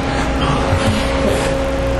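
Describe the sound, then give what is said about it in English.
An ice machine running: a steady, loud mechanical drone with a constant tonal hum and whine that never changes, heard alone without talk. “Not y'all, the ice machine. It's just driving me crazy.”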